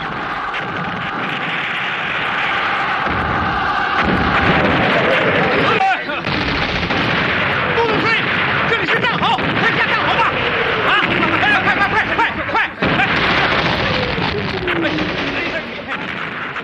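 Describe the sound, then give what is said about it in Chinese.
Artillery and gunfire in a battle, the January 1949 assault on Chenguanzhuang with troops storming barbed-wire positions: a dense, continuous roar of booms and cracks, with whistling shells crossing it throughout. “陈官庄炮火连天，解放军冲过敌人阵地铁丝网。”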